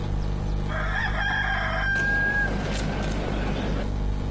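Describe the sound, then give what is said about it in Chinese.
Lushi chickens at an eco-farm, a rooster crowing in a long drawn-out call followed by a brief second crow, then scattered clucking over a low steady background. “远远的就听到了鸡叫声，走过来果然写着卢市鸡生态养殖，看来啊，这儿一定有卢市鸡。”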